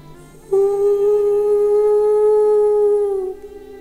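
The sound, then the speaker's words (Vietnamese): A single long animal howl rises from a mountain peak under a full moon. It holds one steady, loud, clear tone for nearly three seconds and dips slightly at the end over a faint tonal background. “Nhìn vần nguyệt giữa bầu không tối tăm, Lan Vương hú lên một tràng dài.”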